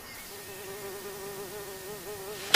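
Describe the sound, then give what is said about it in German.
Wasps buzz in a garden with a steady, droning hum of wavering pitch, continuous throughout, ending in a brief loud burst of noise. “Diese Wespen.”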